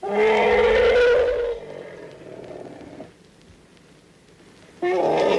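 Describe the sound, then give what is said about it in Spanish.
Human snoring: a loud rasping snore, then a softer, breathy exhale and a quiet pause, before another harsh snore begins at the end. “Estos son los ronquidos de algún humano, sí, fijo.”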